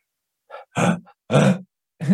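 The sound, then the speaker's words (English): Sneeze from a quadriplegic man with a spinal injury and no diaphragm control: a few short, voiced, grunt-like bursts with pauses between them. The sneeze sounds weak and muffled rather than explosive, and no other sound is present. “That was a sneeze.”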